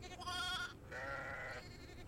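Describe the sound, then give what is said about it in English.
Sheep bleat twice in succession, two drawn-out wavering calls with the second a little longer, quiet and alone with no talking. “with those very busy sheep”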